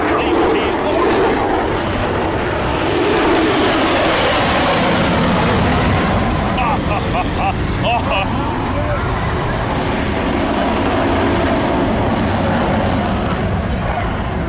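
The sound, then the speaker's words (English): An F-35 fighter jet flies over the Strand and Magnetic Island in North Queensland, giving a loud, broad roar that persists throughout beneath continuous spoken commentary. “For the love of North Queensland, even our Garrison City, Pilot Sam in the F-35 over the Strand, over Magnetic Island, and about to come towards us once more.”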